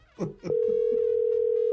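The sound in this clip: A telephone tone sounds on an outgoing call made to leave a voicemail. After a brief stretch of talk, a steady, unbroken tone sets in and runs to the end, with faint voices over it.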